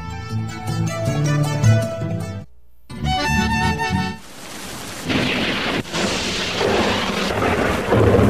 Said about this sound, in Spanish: está lloviendo como nunca. Parece que nos va a llevar.